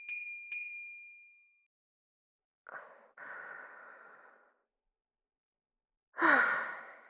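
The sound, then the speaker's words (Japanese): A bell rings twice in quick succession, each bright ding fading out. Soft breathy sighs follow later. “わかりました、わかりましたから、むやみにベルを鳴らすのはご遠慮を。目立ってしまいます。”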